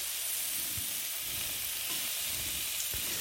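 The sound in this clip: Steady sizzling hiss of marinated meat dry-seared in a pan without oil, browned and turned over; an even, constant crackle with a few faint low knocks underneath.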